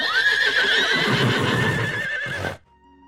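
A horse neighing: one loud, strong whinny lasting about two and a half seconds that ends abruptly, with no talk over it.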